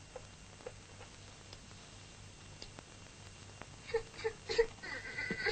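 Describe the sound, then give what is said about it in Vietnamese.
A young child crying, faint and whimpering, over a quiet background. A few short, tonal wails come only near the end. “Ồ, nín đi chị này nè, nín đi.”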